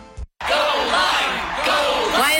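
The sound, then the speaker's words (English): A group of people cheering and whooping for a fruit. The loud, overlapping whoops and yells start after a brief moment of silence and carry on with wavering voices. “Cheering for a fruit.”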